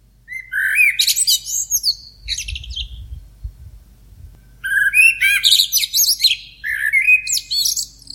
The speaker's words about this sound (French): Il fait encore nuit. J'écoute les premiers merles chanter.